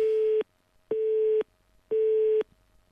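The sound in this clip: Telephone busy tone on a failed call attempt: three evenly spaced beeps of steady pitch, each about half a second long with equal gaps between them, heard clearly on their own.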